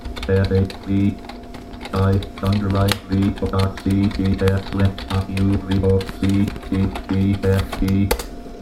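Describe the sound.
Fingers type on a computer keyboard, producing many quick, uneven clicks in short bursts, while a voice talks over the tapping.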